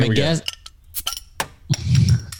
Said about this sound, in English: I'm guessing that was a bottle top of a can, but close enough.